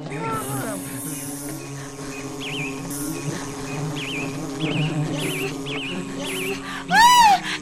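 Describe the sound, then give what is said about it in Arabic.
A wasp buzzes inside a beehive, a steady, reedy drone with wavering, warbling tones, ending in a louder swooping buzz that rises and falls. “لا، إنه الدبور! الدبور! ماذا يفعل الدبور هنا؟”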